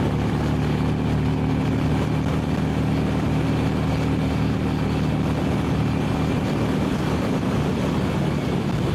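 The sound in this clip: An 883 motorcycle engine running at interstate speed, over 80 mph, mixed with heavy wind rush: a loud, steady, unbroken drone that holds at the same level from start to finish.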